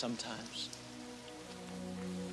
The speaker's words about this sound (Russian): Я хочу, чтобы дождь перестал лить. Дождь не может идти вечно.